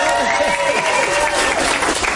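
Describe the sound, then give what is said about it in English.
Round of applause marking Ozzy Osbourne Day in Birmingham, a dense, steady clapping from a crowd with people talking over it throughout. “Yeah, that's a round of applause, I think.”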